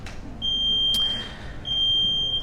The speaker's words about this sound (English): Smoke alarm's going off.